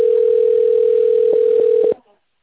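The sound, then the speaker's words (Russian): A steady, buzzy telephone tone plays while a call is transferred to an administrator. It holds one even pitch for about two seconds, with a few soft clicks near the end, then cuts off abruptly into silence. “Вызов переводится на администратора.”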